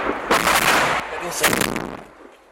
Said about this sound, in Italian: Passano pochi minuti e un lanciarazzi Grad scarica una sequenza di colpi.